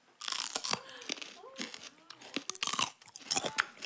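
Crisp crunching as someone bites into a hot green chili pepper: a rapid series of sharp, brittle crunches and chewing snaps, fairly loud, with a few pauses between bites.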